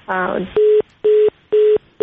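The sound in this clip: A telephone line drops mid-call, leaving a brief voice fragment followed by an even series of short, identical beeps at a steady pulse.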